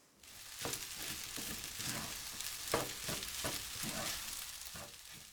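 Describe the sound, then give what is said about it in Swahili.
Rice with soy sauce is stirred in a frying pan while preparing a dry curry. Steady sizzling runs underneath many repeated scraping strokes of the stirring utensil. “ongeza sosi ya soya kijiko kidogo pembeni mwa sufuria. Kisha koroga kila kitu vizuri.”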